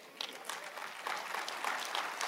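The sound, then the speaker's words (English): An audience gives a polite golf clap during a church service: sparse, separate claps at an uneven rhythm, fairly quiet, thickening slightly toward the end. “I got the same golf clap in the first service.”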